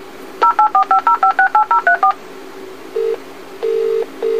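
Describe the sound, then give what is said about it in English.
DTMF tones from an alarm telephone dialing out for assistance: a quick run of about ten short, evenly spaced dual-tone beeps, then a pause and two longer steady tones, all loud and clear with no talk. “Do not worry. Your alarm telephone is dialing for assistance.”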